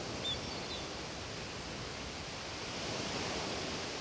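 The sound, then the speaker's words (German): Ocean waves make a steady, quiet wash of surf, a continuous even hiss with no distinct crashes standing out. No voices are heard. “Beginnt sich einzustimmen auf das eintönige Lied der Wellen.”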